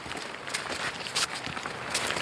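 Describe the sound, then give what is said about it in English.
Footsteps walking up a grassy glen, soft, irregular steps with brushing crunches at an easy walking pace. “We're just going to take a little walk a bit further up the glen.”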